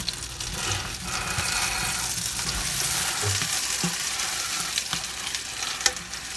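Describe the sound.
Butter melts and sizzles in a frying pan, making a steady bright hiss that continues without a break. A few soft knocks from stirring break through the sizzle now and then.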